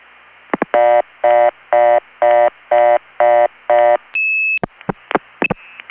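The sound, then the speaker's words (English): Telephone exchange signalling on a crossbar tandem: seven even bursts of multi-frequency tones, then a steady high tone and a run of sharp clicks as the line drops into reorder. No voices. “From the way it clicked into the reorder, it is Rockford, but I'm going to let it time out again, hopefully to get the actual recording.”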